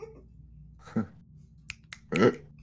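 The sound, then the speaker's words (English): Finger snapping from someone whose middle finger and thumb are callused from frequent snapping: a few sharp, dry snaps spaced irregularly, the last one the loudest, with no talking over them. “I snap so much there's calluses specifically on my middle finger and my thumb”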